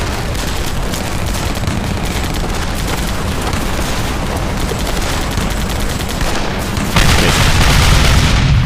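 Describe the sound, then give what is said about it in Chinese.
Heavy artillery bombardment, with gas shells fired during an assault on a besieged fortress, forms a dense, continuous roar of firing and booms with no pauses. It grows noticeably louder toward the end. “命令他们再次进攻，加强炮击，把毒气弹全都打过去。”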